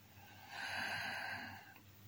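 A single slow, deep breath in during a guided breathing exercise, a soft airy rush that swells and then fades over about a second, faint and alone.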